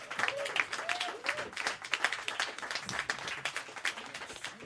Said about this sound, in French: S'il vous plaît, une main d'applaudissement pour notre monologuiste de la semaine, Colin Boudria